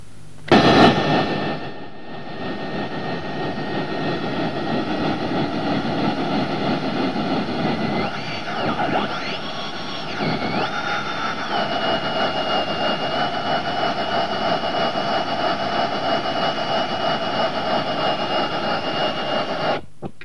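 Radio signal from a satellite spinning at about 182 RPM: a steady, loud roar of hiss layered with sustained hum-like tones, with a few brief warbling whistles partway through.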